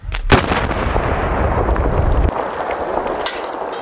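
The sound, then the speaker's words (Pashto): Afghan soldiers detonate a pile of about seventy collected landmines, a sharp, loud blast followed by a long, heavy rumbling roar that stays loud for several seconds and then eases slightly. “دغه ماینونه هم افغان پوځیانو راټول کړه او وروسته یې ورته چاودنه جلا ورکړه.”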